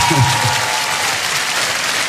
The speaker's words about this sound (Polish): No to oklaski, kochani.